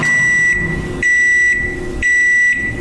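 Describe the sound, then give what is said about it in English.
A microwave oven beeps when it finishes: three loud, high-pitched electronic beeps, evenly spaced about half a second apart. “When you put it in the microwave and it's on that carousel is your wheel of fate for the day. And when you open that door, when you hear this sound,”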